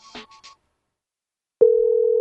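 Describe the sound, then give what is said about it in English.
A telephone line tone on a call to a Bojangles restaurant. Brief soft sounds are followed by near silence, then a steady, loud, low electronic tone starts abruptly and holds to the end. “I don't know if they pick up phones at a Bojangles.”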